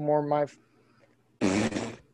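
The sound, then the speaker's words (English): A person farts: two short, loud bursts separated by a brief pause, the first a low buzzing tone and the second a noisier, raspier blast. “Sorry for those listening. I just farted on you.”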